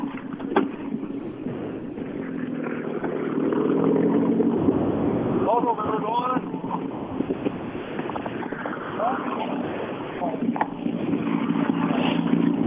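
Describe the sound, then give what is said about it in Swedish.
A self-built replica rally car arrives at the finish line, its engine giving a steady, throaty drone mixed with wind noise while people talk over it. “Luca Gustafsson kommer in i mål. Är det här en fullständig systerbil till Rådströms bil, eller?”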